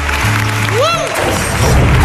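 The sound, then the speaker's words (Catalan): Applause from an audience at a live radio show broadcast from a tower floor in Barcelona. A steady, dense clatter of clapping runs throughout, with a brief swooping electronic tone rising and falling partway through. “Un aplaudiment per tots vosaltres.”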